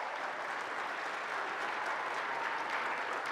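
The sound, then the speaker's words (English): Steady audience applause greets a guest invited up to the stage, with dense, even clapping throughout, neither building nor fading. “By the way, yeah, you can welcome Nancy to the stage.”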